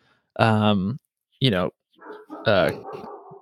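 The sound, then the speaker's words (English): A dog barks his head off upstairs, giving a few loud, drawn-out, yelping barks with a tonal, whining quality. A short break separates them, and the last bark trails off into a quieter whimper. “do you hear my dog barking his head off upstairs? Is it distracting? Like, do I need to run get him?”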